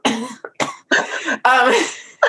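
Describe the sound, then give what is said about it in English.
Harsh, voiced coughing from one person: several loud bursts with sharp onsets and short gaps between them, the longest fit coming near the end. “So I'm ready to cough out a lung. Have you noticed that? I'm like starting to cough.”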